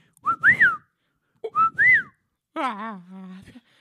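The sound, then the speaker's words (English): A person whistles a signal: two short rising-and-falling whistled phrases, then a longer, lower voiced tone, each separated by brief silence. “oh, you can't whistle. I forgot you can't whistle.”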